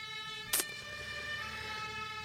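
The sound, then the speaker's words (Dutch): A siren wails from a very small toy fire engine, giving a quiet, steady tone rich in overtones. A brief sharp click comes near the start. “Feestelijke sirenes.”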